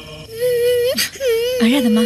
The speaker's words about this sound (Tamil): குழந்தை சாயந்தரத்துல இருந்து அழுதுகிட்டே இருக்குதுப்பா.